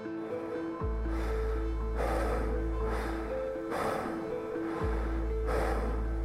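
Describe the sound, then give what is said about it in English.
Deep breaths from a drunk man sitting with his eyes closed: a few slow, breathy rushes of air rise and fade in a regular rhythm over a steady low hum. “Take a deep breath 4 times.”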